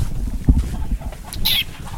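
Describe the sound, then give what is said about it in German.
Chickens in a henhouse beside a small farmhouse in the countryside give a few brief clucks and one sharp, higher squawk over a low, rumbling background. “Land, ein kleines Haus, ein Hühnerstall.”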